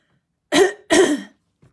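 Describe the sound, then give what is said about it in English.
Throat clearing in two harsh, rasping bursts, the second longer than the first, with a faint brief rasp trailing after; no talk. “Got to sort that throat out.”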